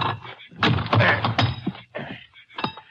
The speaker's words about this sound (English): See if I can pry that lock off. A fairly new lock by the look of it.